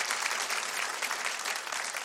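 An audience applauds a magician's assistant at a magic show: brief, even clapping from many hands, moderately loud and unbroken for about two seconds.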